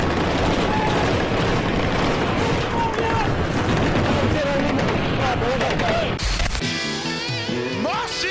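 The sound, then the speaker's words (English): Sustained machine gun fire in combat: a dense, loud, unbroken rattle of rapid shots with heavy crashing bursts and voices mixed into the din. The texture changes abruptly shortly before the end. “Machine gun!”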